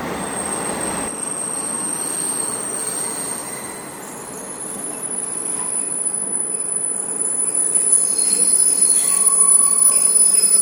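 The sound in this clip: Train arriving at Junction 3080 station, with a steady rumble under a thin, high wheel squeal that grows gradually louder, without voices.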